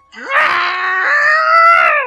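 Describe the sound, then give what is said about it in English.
A voice performs a creature's terrified scream as it is dragged down a shaft into a dust machine's vortex. One loud, drawn-out wail begins with a quick upward slide and then holds a strained, harmonic pitch for about two seconds. “it is caught in the dust machine's grasp, and within seconds, it is pulled down the shaft towards the vortex, letting out a terrified scream”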